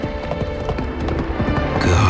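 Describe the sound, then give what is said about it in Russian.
A horse gallops on a mountain trail, its hoofbeats sounding as a rapid, steady run of clopping strikes that grows slightly louder toward the end. “Гнал коня по горной тропе мимо древних гробниц”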